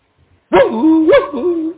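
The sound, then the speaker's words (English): A person imitates a dog during prayer at a church deliverance meeting, giving two loud, drawn-out, voiced bark-like cries with wavering pitch, alone and without other talk. “it was the first time I had somebody barking like a dog.”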